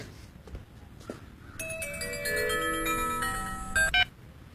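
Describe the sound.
A phone rings with a bright, melodic electronic ringtone: a run of stacked tones that plays for about two and a half seconds over low background noise and ends on a short, louder burst.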